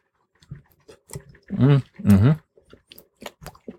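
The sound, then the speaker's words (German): Someone chews a cooked, unsalted al dente pasta noodle, making soft wet mouth clicks scattered throughout, with two hummed, voiced murmurs in the middle. “Wir müssen mal kurz eine Nudel probieren, Sekunde.”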